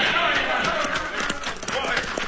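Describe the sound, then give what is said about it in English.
Horses gallop at full speed in rapid, rolling clip-clop hoofbeats during a Western chase, with shouting voices over them. “That Cisco Kid and his partner's riding this way at full gallop.”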